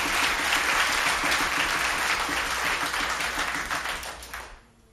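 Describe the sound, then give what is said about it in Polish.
Audience applause greets a young band member introduced at a live jazz performance. Dense, steady clapping holds at full strength, then fades away at the end. “Brawa dla tego młodego człowieka.”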